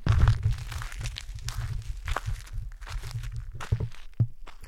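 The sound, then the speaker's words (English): Footsteps walking on a gravel road just out of a forest, with many irregular crunching steps in a steady walking rhythm. Low rumbling handling noise sits underneath. “Okay, now I'm fully on the road, not in the forest at all, so now you'll hear gravel when I walk.”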